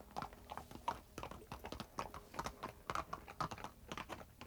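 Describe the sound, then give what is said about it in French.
Hoofbeats of a horse being ridden away: many quick clip-clop taps in a steady, slightly irregular rhythm, faint throughout and heard without voices. “Il disparaît. Il me reste encore de lui les pas de son cheval.”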